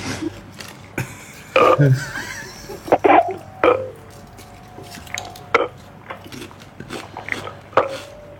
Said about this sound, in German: Oh, ich kann keine 4 rülpsen, glaube ich.